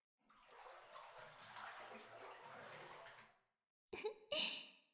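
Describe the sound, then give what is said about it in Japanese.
Bathwater sloshing and pouring in a filled tub during washing and soaking, a steady watery wash followed by two brief, sharper splashes near the end. “それじゃあ、体洗ってもう一回お風呂に浸かろうか。”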